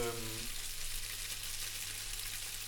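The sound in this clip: Scrambled egg briefly frying in a pan as it sears, a steady soft sizzling hiss that holds evenly throughout, with a voice heard only for a moment at the start.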